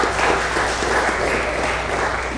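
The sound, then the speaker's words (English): A church audience applauds its musicians, the bell, brass and vocal performers, with a steady, even round of clapping from many hands that holds at a constant moderate level throughout, with no talk over it. “Can we give a nice round of applause for all the musicians and all the music that made this so wonderful?”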